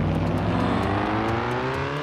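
Engine whine of a car driven in a virtual reality video game, a steady harmonic drone whose tones creep slightly upward in pitch, sounding on its own without talk.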